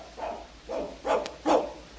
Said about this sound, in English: I thought I told you not to bring that dog in here.